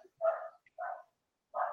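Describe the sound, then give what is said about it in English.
A dog barks three times in sharp, mid-pitched bursts, with short gaps between them and a longer pause before the last bark. No voices are heard. “sorry, my dog is like going crazy right now. My dog normally does that too.”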